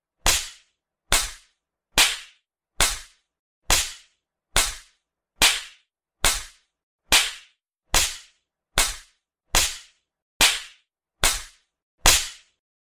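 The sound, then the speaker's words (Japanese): Sharp smacks of an open palm spanking buttocks as punishment, repeated many times at a steady, even pace under a second apart. Each slap is crisp and loud and decays quickly. No voices between the strikes. “先輩のお尻を叩く私の手のひらをちゃんとお尻で受けてくださいね。”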